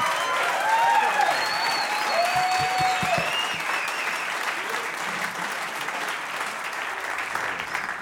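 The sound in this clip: Applause from a live audience welcoming a musician back to the stage at a music show. Dense, steady clapping with cheering and several high whistles early on, then a slight easing of the applause later.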